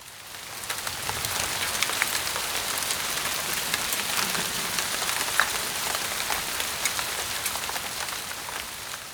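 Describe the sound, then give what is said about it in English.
Rain falls in a steady, dense patter of many drops striking a surface, an even hiss that holds at a constant level throughout with no voices. “It's raining.”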